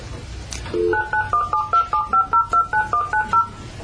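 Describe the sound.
Telephone keypad dialing tones: over a dozen short, evenly spaced beeps of varying pitch follow in a quick, steady rhythm, clear and loud, with no talking.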